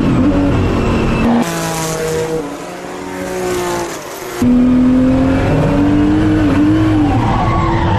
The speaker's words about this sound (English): You can hear that I don't really get off the throttle when the rear end starts going around.